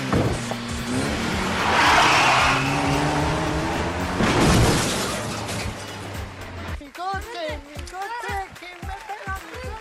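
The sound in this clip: Cars drive in a film scene, with loud roaring engines and squealing tires in a dense rush of noise. Voices then speak over quieter traffic.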